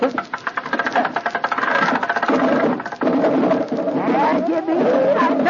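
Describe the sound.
An engine cranked into life, first a quick run of rhythmic chugging rattles, then a loud, steady mechanical running drone that holds to the end.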